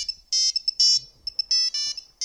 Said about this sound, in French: Et donc j'ai pris mon téléphone, mon Nokia 3310 à l'époque.